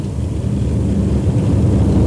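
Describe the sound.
Dense, steady roar of race cars at Pocono Raceway during lap 42, as a low rumbling wall of engine noise with no pauses.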